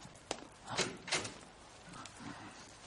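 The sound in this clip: Door being opened in a Persian-language drama, heard as a few faint knocks and rattling thumps with soft shuffling between them, quiet throughout.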